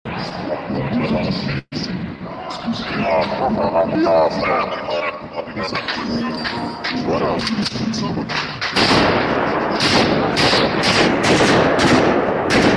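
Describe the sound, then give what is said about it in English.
Gunfire from a man shooting a gun in played footage: dense, loud, cracking bursts run throughout, turning into a faster, regular string of shots in the final seconds, with voices mixed underneath. “I mean, to me, that looks like a guy who doesn't know how to handle a gun. Then he starts shooting and he gets, and you know, it's pushing him back.”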